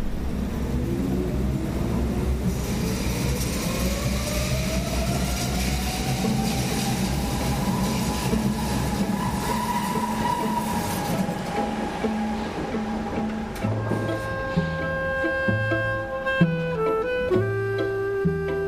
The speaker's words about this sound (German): Und das machen wir jetzt mal direkt und schnappen uns hier eine U und fahren zurück zu unserem Ausgangspunkt.